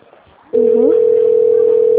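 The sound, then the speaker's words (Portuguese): Telephone dial tone during a call to city hall: low hiss for a moment, then a loud, steady single tone switches on abruptly and holds unbroken. “Tô ligando lá na prefeitura agora.”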